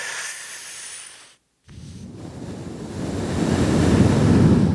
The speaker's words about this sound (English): Just breathe in as much air as you possibly can and then slowly breathe the air out. So go like this.